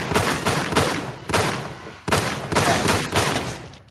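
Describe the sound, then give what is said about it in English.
Gunfire sound effect: loud bursts of rapid shots in several volleys separated by short pauses, each decaying before the next, with no talk over them. “Shots fired.”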